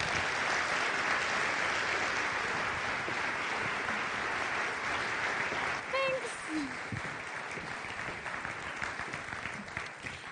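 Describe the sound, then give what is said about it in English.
Audience applause welcomes a speaker at Commonway Church: dense, sustained clapping that stays loud throughout and eases only slightly toward the end. “Would you please join me? Let's put our hands together in giving Krista Hayden a very warm, enthusiastic Commonway Church welcome.”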